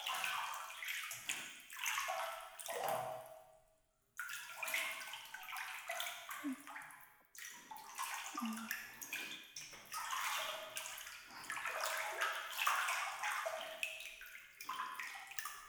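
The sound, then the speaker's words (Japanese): Hot bath water is poured over someone's shoulders in a bathtub: soft, continuous splashing and trickling in a few separate pours with brief pauses between them, quiet and with no talking. “時々肩にお湯かけてあげる。”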